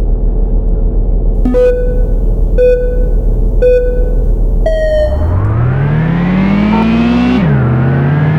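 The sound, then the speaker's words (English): Audi Quattro race car in a racing video game: over a low idling hum, four countdown beeps sound, the last one higher, then the engine revs up with steadily climbing pitch and briefly dips as a gear shifts. “I think I'm going to start this race and people can join while... The cranked up Quattro.”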